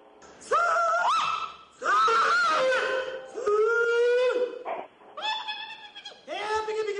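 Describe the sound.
A woman's prize-winning hog call at a fair: five loud, drawn-out, strained vocal cries with a rich, harmonic tone, each wavering in pitch, separated by short pauses.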